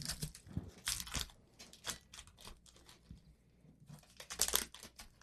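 Trading card packaging is torn open with crinkling, crackly tearing in a series of short, irregular bursts. The sound is faint, with no talking.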